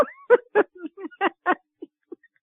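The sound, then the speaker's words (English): A pet dog whimpers and yips in a quick run of short, high whining cries, some with sliding tones, trailing off into a couple of softer yelps. “that was my dog just validating”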